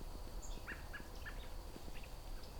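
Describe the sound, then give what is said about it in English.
High peeping calls from a flock of birds at sunset repeat many times in quick, overlapping bursts over a steady low background rumble. “If you catch a flock of those at sunset, you'll hear lots and lots of those pinks. Peeps.”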